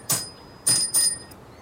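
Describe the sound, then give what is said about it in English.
A small bell is struck three times, each a bright, high ring with a thin sustained overtone. The first strike stands alone and the last two follow in quick succession. “They hit bells.”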